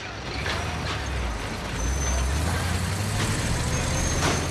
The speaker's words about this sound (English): The tow truck arrives back at its premises.